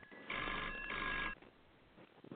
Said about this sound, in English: We have a caller coming through.